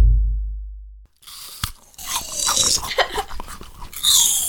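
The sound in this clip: A crisp, loud crunch as teeth bite into a Honeycrisp apple, followed by a run of wet, crackly chewing crunches of uneven rhythm.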